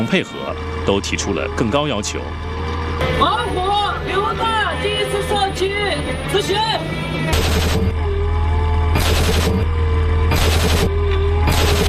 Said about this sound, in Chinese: 近日，陆军某旅在结束陆上训练科目后，迅即转场闽南某海域开展海上教练射击训练